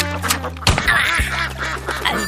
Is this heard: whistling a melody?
no